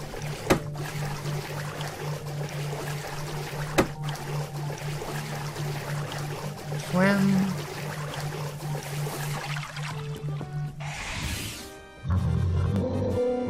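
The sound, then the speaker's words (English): Water swishes and sloshes as a character swims in a video game, a steady watery wash over a low sustained hum, with a brief stronger swoosh near the end. “All right, let's swim.”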